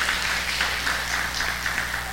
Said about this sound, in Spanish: Dale un aplauso al Rey de Reyes.